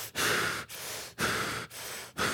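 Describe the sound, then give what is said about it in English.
Deliberate, slow breathing in even, unbroken cycles, with louder and softer breaths alternating about five times, each separated by a brief pause; no talking. “It's the idea, though, that you keep breathing.”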